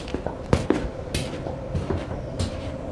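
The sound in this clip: A metro train at a station, with a low rumble broken by a few sharp clunks and knocks of moderate loudness, spread irregularly through the stretch and heard without any talking.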